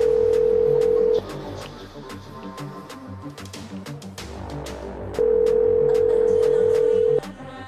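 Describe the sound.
Ringback tone from an unanswered phone call to a store: two long, steady beeps, the first already sounding at the start, with about four seconds of quieter line noise between them.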